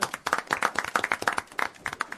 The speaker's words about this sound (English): let's give the new guy a round of applause.